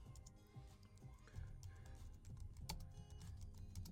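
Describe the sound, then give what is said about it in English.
A post is being typed on a computer keyboard, giving many faint, quick clicks in irregular runs, with short pauses between bursts of keystrokes. “Let me type it right here on Periscope. So that way you have it here for a record.”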